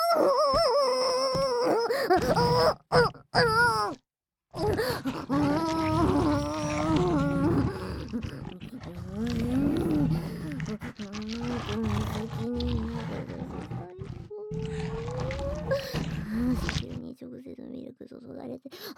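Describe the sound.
A human voice imitates a deep animal roar pushed from the belly: long, wavering growls and howls with shifting pitch that continue for nearly twenty seconds, broken by a few short gaps early on.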